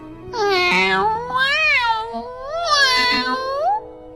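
Three long, wavering cat meows, loud and clear, each rising and falling in pitch, with no talk over them.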